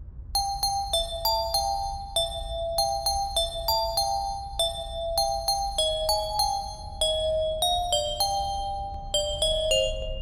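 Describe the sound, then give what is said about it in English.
A hand-cranked music box with raised lettering plays a steady melody of many bright, plucked metallic notes with ringing overtones, over a low mechanical rumble. “Let's see what, if there's a little handle here, and let's see what this music box sounds like.”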